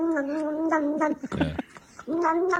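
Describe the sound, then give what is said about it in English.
Cat meowing in a few drawn-out, wavering mid-pitched calls, separated by a brief rougher burst of noise. “You know that one? That's a cat.”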